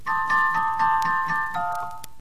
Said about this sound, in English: It's definitely being played. You know, it's not just a random chiming. It's some sort of chime theme that plays as it comes in.